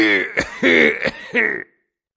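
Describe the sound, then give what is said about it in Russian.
An old man coughs in three hoarse, raspy bursts of coughing and throat clearing, each rough and gravelly with brief gaps between them, before falling silent. “И казалось, что вновь начавшемуся кашлю суждено было прожить гораздо долее, чем старичку, обладателю этого кашля.”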